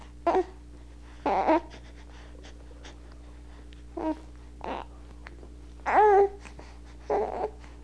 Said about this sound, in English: Now that was from the back of the throat, was a kind of lip spreading. That's a cry.